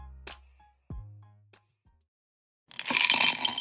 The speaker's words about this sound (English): That's the sound of Brock's jelly beans being poured into a candy bowl.